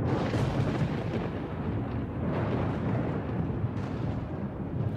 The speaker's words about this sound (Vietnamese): Chú lệnh ầm ầm từ trên tầng không liên tục là 5 tia sét màu tím đánh thẳng xuống Huyết Nhi Quỷ.